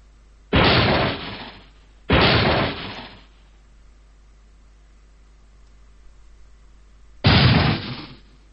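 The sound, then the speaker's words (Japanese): Three gunshots inside a guesthouse: two loud cracks about a second and a half apart, each with a brief ringing decay, then a long pause before a single final shot. No voices. “2発の銃声、間を置いて1発の銃声がペンション中に響き渡った。”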